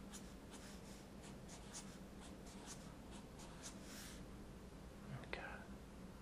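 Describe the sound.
A pen writing an answer to a math problem on paper, with a steady run of soft scratchy strokes. A quiet, soft-spoken voice murmurs faintly beneath.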